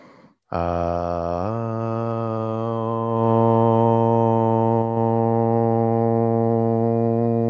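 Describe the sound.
Group chanting of om at the close of a yoga class: one long, loud, low drone begins after a brief pause and holds steady to the end, swelling slightly partway through.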